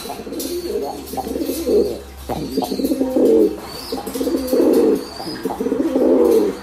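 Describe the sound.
A pigeon coos right at a microphone while strutting around it, half courting and half attacking it, giving several low, throaty, rolling coos in repeated bursts with short gaps between them.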